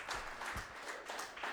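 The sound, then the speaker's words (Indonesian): Short, faint burst of audience applause for team C at a quiz contest. It is brief, scattered clapping. “Bapak Ibu berikan dulu tepuk tangannya untuk regu C.”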